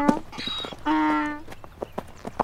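Hooves of a mud-covered horse clip-clopping on a trail, a few soft, fairly faint steps at a walking pace.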